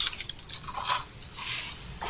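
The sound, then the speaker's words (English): Crisp French fries crunching while being chewed: a few irregular, crackly bursts, fairly faint, with no voices. “Texture on 637 is shatteringly crisp. It's amazing. Perfect French fry texture. It's loud. Yes. As you chew it, it's crunchy.”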